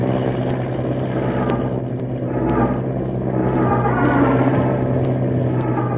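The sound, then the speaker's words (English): Steady droning roar of an early airplane engine as the flying machine gathers speed for takeoff on its first powered flight, a dense low rumble with a constant hum and faint, regular clicks, no voices. “Gaining speed now. The plane lurches. Wind tears in a rudder.”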